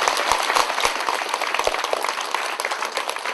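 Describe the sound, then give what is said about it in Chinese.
An audience at a Buddhist temple gathering applauds warmly to thank a fellow member. The clapping is loud, dense and continuous throughout, with a few sharper individual claps standing out. “大家向以最深热烈的掌声”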